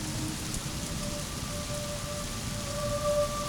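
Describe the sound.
Rain falls on the streets at evening as a dense, steady hiss of drops. It holds at an even level throughout, with no voices.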